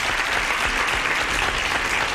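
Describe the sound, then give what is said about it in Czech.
Applause sound effect: a dense, steady wash of many hands clapping at even loudness throughout, with no single voice standing out. “tak tleskám, potlesk letí”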